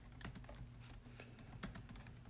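Typing a search on a computer keyboard: a steady run of many quick, light keystrokes clatters along with an even rhythm and no voices.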